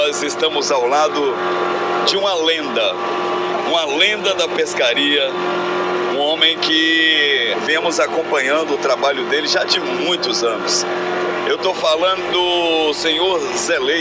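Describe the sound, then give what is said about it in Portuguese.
Boat motor running during a river crossing, a steady low engine drone that continues throughout beneath a man's prominent talking. “Gente, esse som que vocês estão ouvindo ao fundo é o som do motor.”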